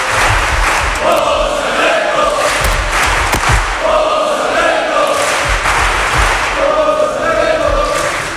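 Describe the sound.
A crowd chants in honour of José Alberto, many voices roaring rhythmic phrases in three recurring waves over a steady, loud background of crowd noise.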